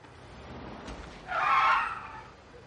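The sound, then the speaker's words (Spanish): A brief tyre screech as a police patrol car cuts off a vehicle in a street, from a scene in the 1995 crime thriller Heat. The hissing squeal swells up midway over a low, quiet rumble and then fades. “El vehículo circula por una calle. Un agente apostado en un tejado le sigue con una mirilla. Un coche patrulla le corta el paso.”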